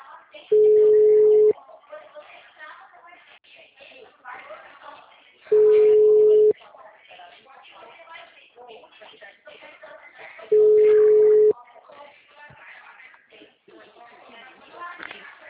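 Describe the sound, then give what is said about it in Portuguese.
Mobile phone ringback tone during a call: three steady one-second beeps about five seconds apart, with muffled voices and rustling between them. “que atende esse celular”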